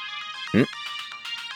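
A mobile phone's ringtone for an incoming call: bright electronic tones repeating in a steady pattern, with one brief, louder, lower burst early on.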